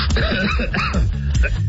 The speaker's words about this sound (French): On tousse en réaction, ici.